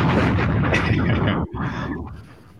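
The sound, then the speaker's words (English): A loud explosion-like flex bomb sound effect plays for a guest: a booming burst that cuts off abruptly, followed by a quieter rumbling tail that fades away. “Can we get a round? Can we get a flex bomb for Raj? We can. Yeah, let's. There we go.”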